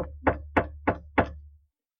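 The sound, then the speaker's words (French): Four firm knocks on a door, evenly spaced about a third of a second apart, each with a short resonant thud, over a steady low hum. “Voici, je me tiens à la porte et je frappe.”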